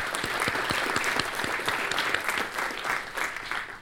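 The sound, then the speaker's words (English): An audience applauding at an evening history program at the New York Historical Society: steady, even clapping with many distinct claps, holding at a constant level throughout. “Let's give them a hand as well.”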